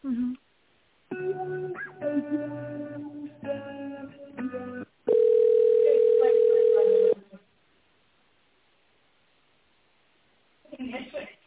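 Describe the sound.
Ringback tone on a telephone line while a business call is being transferred: a single steady, loud tone lasting about two seconds, followed by silence. Voices on the line come before it and again at the end.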